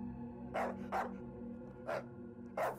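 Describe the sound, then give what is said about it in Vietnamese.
A dog barking four short, sharp times in an uneven rhythm, fairly faint over a steady low hum, with no talking. “Đột nhiên con Tuyền từ bên ngoài chạy vào sủa lên.”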